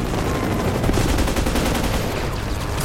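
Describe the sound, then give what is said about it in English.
Gunfire from a helicopter chasing a motorcycle rider in an action film: loud, dense, continuous rapid bursts forming an unbroken barrage, with no talk over it. “Rounds bursting around him and frowning grimly, he aims the bike straight for the oncoming Humvees.”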